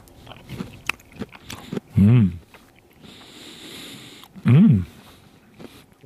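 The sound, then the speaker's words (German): Someone bites into and chews a mouthful of roasted cauliflower curry. Two loud, crunchy bites stand out, separated by quieter chewing, with a little talk at the start. “Ich nehme nochmal einen Haps. Auch der Blumenkohl, der angeröstete, der schmeckt, finde ich, sehr, sehr lecker.”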